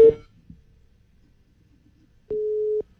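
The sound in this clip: A busy signal from a rejected phone call: one steady, mid-pitched beep lasting about half a second near the end, following a brief cut-off tone at the very start and near silence.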